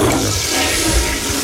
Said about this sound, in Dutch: Even doortrekken, zou ik zeggen.